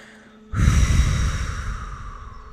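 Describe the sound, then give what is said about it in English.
A deep, forceful exhale pushes all the air out of the lungs during a guided breathing exercise. It is a loud, breathy rush that starts abruptly and slowly tapers off, with no talk. “I'd love for you to exhale all your air, really push everything out of your lungs.”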